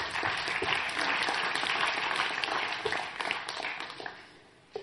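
Dense applause from a church audience, a steady wash of many hands clapping for about five seconds before it tapers off near the end.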